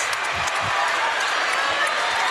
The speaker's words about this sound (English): Wow, the crowd. The team mobbed by the students, yeah, in the near court.